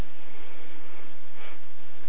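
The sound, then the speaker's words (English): A long, deep inhale during a guided breathing exercise: a loud, steady, airy rush of breath that fills the whole clip without pause. “And inhale.”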